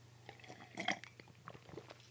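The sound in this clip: People take a sip of beer after a toast, with short wet slurping and swallowing sounds and a few soft clicks and gulps. The sounds are faint and clustered near the middle, with no talking.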